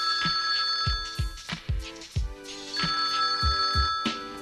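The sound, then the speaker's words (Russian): A telephone rings in a stranger's flat: a steady, high electronic ring sounds in two long bursts over low, regularly spaced thumps of a beat, with no voices. “И тут звонок.”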